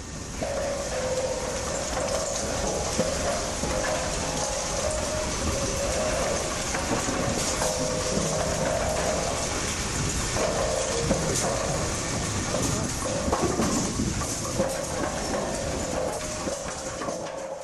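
Dense mechanical clatter and clanging from about 50 several-ton pinsetter machines running at once backstage at a bowling alley, handling pins and balls. The din is loud and continuous throughout, with constant rattling and no pauses.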